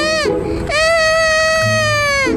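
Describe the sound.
A child cries loudly in a high, piercing wail. A brief opening cry is followed by a longer, sustained howl that holds its pitch almost to the end.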